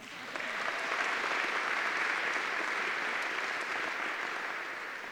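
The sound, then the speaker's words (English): Audience applause for a student pipe organist at an academic celebration. The clapping is steady and full for about five seconds and tapers slightly at the end. “and so let's give him a hand.”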